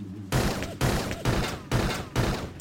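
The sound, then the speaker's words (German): Five gunshots fired at a chain in a video game, evenly spaced about half a second apart. Each is a loud crack with a sustained, ringing tail that holds until the next shot, with no talk. “Das Spiel erwartet von uns nun, dass wir die Kette, mit der Morachi angekettet ist, abschießen.”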